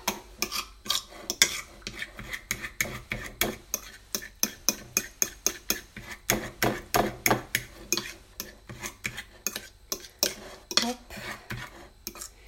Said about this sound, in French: l'huile qui se rassemble avec la banane. Ça fait travailler les bras aussi donc j'écrase toujours.